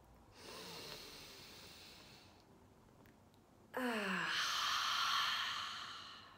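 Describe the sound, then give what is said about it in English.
A deep, slow breath, soft and airy: a long stretch of breathy noise, a brief lull, then a second fuller and louder rush of air that fades gradually. “Take a deep breath in with me, folks.”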